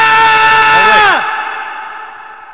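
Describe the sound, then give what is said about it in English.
A voice thick with added reverb and echo: a loud, sustained, ringing tone cuts off abruptly and leaves a long tail that fades away. “Oh, that's just an echo. Added reverb. Is that a different one? Yeah, that one just... That one's they added reverb to that guy.”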